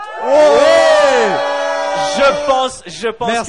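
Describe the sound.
An audience cheers and whoops for a contestant competing for a trophy, with loud sustained shouts at first that break into choppier, rising and falling yells.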